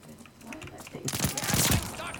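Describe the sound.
Video game gunfire breaks out midway as a dense, rapid barrage of sharp shots, much louder than the quieter stretch before it, and continues to the end.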